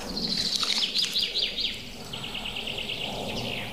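A goldcrest calls with thin, very high chirps in quick little series over a steady background hiss, fairly faint throughout.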